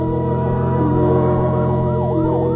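A fire engine siren screams through the night, loud and continuous. Its wail sweeps repeatedly up and down in pitch, with no voices.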